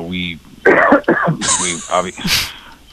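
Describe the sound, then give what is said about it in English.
Someone clears their throat over a phone line, giving several harsh, rasping bursts mixed with brief voiced sounds, moderately loud and uneven. “I can hear somebody clearing their throat. Is there somebody on the line here with me?”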